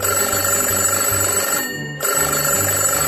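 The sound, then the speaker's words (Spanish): Telephone bell ringing loudly and continuously, broken by one short pause midway before the ringing resumes. “¡El teléfono!”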